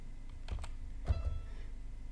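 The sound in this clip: Keys clicking on a computer keyboard while notes are entered into music notation software: a few sharp, separate keystrokes at an irregular pace, fairly quiet, with no voices.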